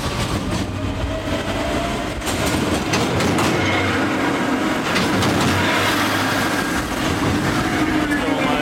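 A train or gantry crane rolls along the rails at a track construction site, a loud, steady metallic rumble and clatter that keeps going without a break.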